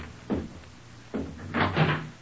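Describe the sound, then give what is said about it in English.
A door being opened: a few muffled wooden thuds spaced apart, the last ones running together into a short rattling clatter, all fairly quiet. “Sir, there's somebody at the door.”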